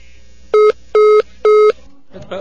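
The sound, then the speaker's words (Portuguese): After a dropped phone call, three identical telephone beeps sound at an even, steady pitch. Each is short and loud, evenly spaced, and followed by faint line noise. “A ligação caiu, a Dona Rua vai voltar a ligar.”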